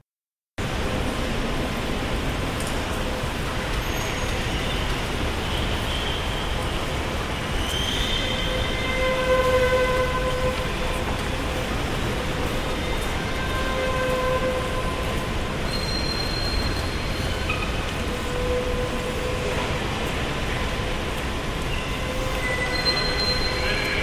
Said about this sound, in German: Eine automatisierte Ansage ertrinkt durch den einfahrenden Zug.